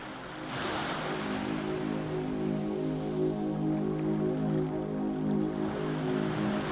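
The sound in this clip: Ocean waves wash steadily around a small fishing boat on calm water, a continuous soft roar of surf that holds at an even level for the whole stretch, with a faint low hum beneath and no voices.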